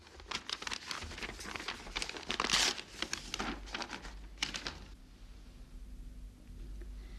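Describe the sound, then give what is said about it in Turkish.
Crinkling and tearing paper as an envelope found inside a jewellery box is opened, a busy run of rustles and rips that stops partway, leaving a faint steady hum. “Bir şey daha var Feriha Hanım. Mücevher kutusunun içinde bir de zarf bulduk. Size yazılmış. Buyurun.”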